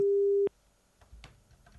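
A telephone line tone sounds after a disrupted call: one steady, loud tone lasting about half a second that cuts off abruptly into a faint, low background rumble with a few soft clicks.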